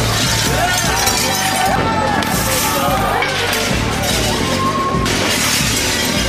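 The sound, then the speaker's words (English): Glass smashing as rioters vandalize corporate stores: repeated sharp shattering and breaking over a loud, continuous din of crowd noise and voices. “Do you know what that is? That's the sound of capitalism being smashed. I cannot even count how many corporate stores were vandalized.”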